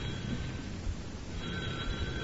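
A telephone rings with a steady, continuous bell tone over a constant background hiss, unbroken through the whole stretch.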